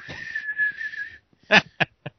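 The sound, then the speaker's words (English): Someone whistles into an object to hear its echo: a sustained, steady high whistle, then three short, sharp bursts after a brief pause. “All right, so just when you get just whistle into it,”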